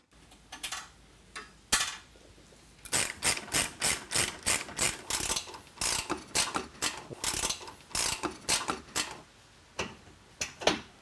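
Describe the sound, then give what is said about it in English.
A 5/8-inch socket wrench ratchets as sway bar brackets come off during a suspension lift, giving rapid, evenly spaced clicking strokes in several runs separated by short pauses, with no talking. “Remove the two sway bar brackets with a 5/8 socket so you can lower that sway bar.”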